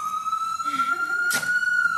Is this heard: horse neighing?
no